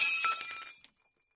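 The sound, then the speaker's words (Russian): A china cup falls and shatters in one bright, crashing break, with tinkling fragments that fade out quickly into silence. “Последнее, что я услышал и осознал, — звук разбившейся чашки.”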